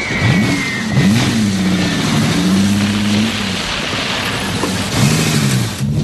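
A guard's car engine hums and revs as the car backs up. The mid-pitched engine note rises and falls in a few swells, with a steady background hiss underneath.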